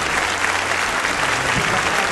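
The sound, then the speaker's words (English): Loud audience applause for a performer at the close of a live show: a continuous, dense roar of many hands clapping at a steady level. “Ladies and gentlemen, give you a round of applause, the amazing Richard Osman!”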